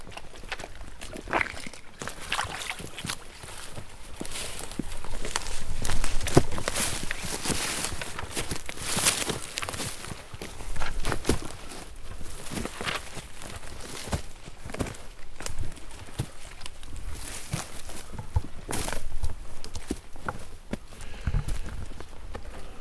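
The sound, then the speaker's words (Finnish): Footsteps walking up a hilly forest path, a continuous run of crunching, scuffing steps that carries on for over twenty seconds with little else heard. “Kävelemme mäkistä polkua ylös”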